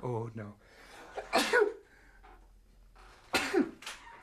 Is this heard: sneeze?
yes